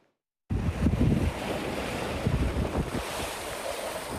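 Sea waves washing onto the shore at Seka Park beach in İzmit, Kocaeli, where the water is covered in foam: a steady, loud roar of surf mixed with heavy wind buffeting.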